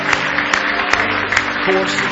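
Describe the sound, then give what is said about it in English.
A church audience claps in praise, a few sharp claps in a steady rhythm roughly every half second, sounding over a sustained tonal background. “Give him one more clap of praise if you love him tonight.”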